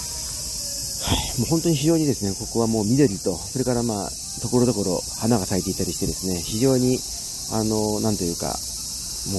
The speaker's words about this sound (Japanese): セミの姿は私の目には入ってきませんけれども、耳にはですね、このセミの鳴き声が飛び込んでくるという